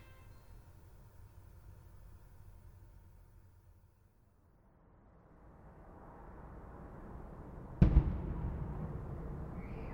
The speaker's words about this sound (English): those bombs you'll hear are just part of the story.